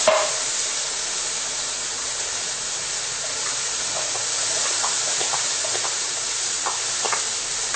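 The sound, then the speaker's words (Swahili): Onion, tomato and green bell pepper frying in a pan over lowered heat: a steady, moderately loud sizzling hiss with faint scattered crackles throughout. “Wakati kitunguu na nyanya zinaposhikana, pia tunaenda kuchukua ile pilipili hoho, pia tunaiunganisha pia.”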